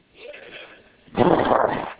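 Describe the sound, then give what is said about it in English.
A person imitates a growl: a brief, quieter vocal sound, then a loud, rough growl lasting under a second. “What you do is you just let them know you're displeased. You growl at them.”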